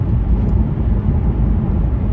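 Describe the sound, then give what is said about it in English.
Steady low rumble of a car driving through downtown streets over potholed pavement, a continuous engine and road drone with no voices. “Anyways, we're driving through downtown now. We're passing over it.”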